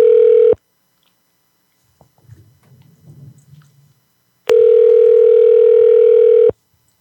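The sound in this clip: A steady, loud telephone dial tone sounds in two stretches, a brief one at the start and a longer one of about two seconds later, with faint low rustling in the quiet gap between.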